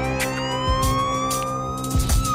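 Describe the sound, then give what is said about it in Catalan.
A police siren wails loudly and continuously, its pitch gliding slowly upward. Low rumbling thumps sound beneath it. “Però estic a dins amb aquesta sirena.”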